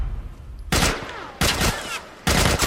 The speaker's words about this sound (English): Now they're shooting at me.